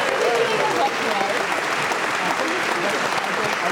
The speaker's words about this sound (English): Well, give it up for our audience members.